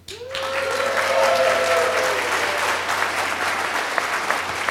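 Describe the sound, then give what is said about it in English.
Applause from a live audience at a show recording, a sustained wash of clapping that starts almost at once and holds steady and loud to the end. “In front of a real audience, as you can hear. Audience, make yourself known.”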